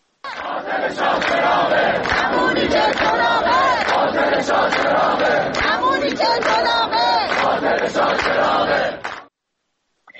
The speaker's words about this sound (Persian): دانشجویان دانشکده فنی تهران هم از جمله شعار سر دادن که شاه چراغ رکس دیگه است، اینم یه نیرنگ دیگه است. بشنویم صدای دانشجویان دانشکده فنی تهران رو.